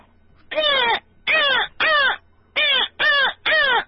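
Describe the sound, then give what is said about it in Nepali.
A crow caws six times in a steady series of hoarse, harsh calls, each loud and clear with a short pause between them and a slightly longer gap after the third. “नाच्यो नाच्यो काग कराउँछ”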